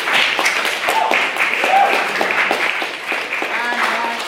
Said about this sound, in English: Can we have a second round of applause for a maiden speaker as well